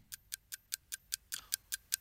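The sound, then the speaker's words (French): Ticking timer on a French quiz game show, about ten crisp, evenly spaced ticks at a brisk steady pace, with a brief extra burst of noise partway through. “Je mets un petit tic-tac.”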